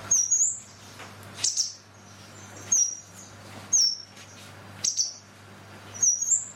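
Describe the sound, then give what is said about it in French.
High, bright chirping calls of a blue tit, a small insectivorous passerine: six short call bursts at fairly even intervals, each a quick high note, over a faint steady low hum. “La mésange bleue. La mésange bleue est un petit passereau insectivore au plumage parfois rehaussé de teintes vives répandues dans le monde entier.”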